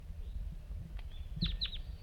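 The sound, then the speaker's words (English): A wild bird calls with two short, high, falling chirps in quick succession, plus a fainter earlier note, over a steady low rumble of background noise. “they're recording the wild bird.”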